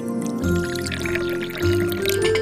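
Tea is poured into several cups, a steady liquid stream with ringing tonal resonances that shift in steps as each cup fills, moderately loud and with no talk over it.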